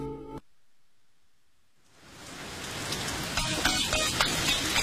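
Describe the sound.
Rain falling in a city: a brief electronic tone opens, then near silence gives way to a dense, hissing downpour that swells steadily louder and stays heavy to the end, with no voices.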